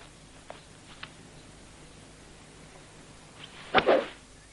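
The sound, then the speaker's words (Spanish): A golf club swing hitting a ball off the tee during a round of golf, heard as one sharp crack with a short rushing burst, alone over a faint, steady background hiss. “Vuelve a colocar la pelota e inicia el swing.”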